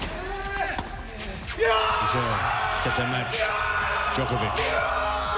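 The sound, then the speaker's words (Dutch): A man's loud primal scream of triumph after winning a four-set tennis match at Roland Garros; the sharp yelling bursts in after a quieter opening and stays loud and raw to the end. “Na 4 sets won de Serviër en schreeuwde hij het uit.”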